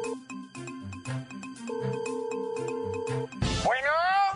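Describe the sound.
A melodic electronic ringtone signals an incoming phone call, repeating short bright notes in a steady pattern for about three seconds before it cuts off into a brief noisy burst.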